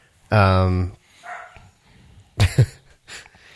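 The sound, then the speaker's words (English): A dog barks: a drawn-out yelp first, then a few short sharp barks, loud over a quiet background with faint rustling between them. “Pardon the barking, everyone.”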